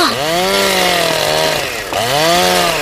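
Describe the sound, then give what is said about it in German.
Chainsaw cutting down an old, diseased tree: a loud, continuous engine whine whose pitch dips twice as the blade bites into the wood, then recovers. “wieso sägt der Mann da drüben ihren Baum ab?”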